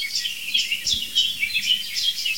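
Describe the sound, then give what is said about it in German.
Birdsong from a blackbird and a song thrush: many bright, high chirping phrases repeat in a lively, uneven rhythm over a faint low rumble. “auf jeden Fall Amsel und Zinkdrossel. Am meisten.”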